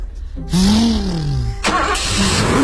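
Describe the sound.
A car engine accelerates, its whine rising and then sinking, before a short break and a second rumbling burst of revving.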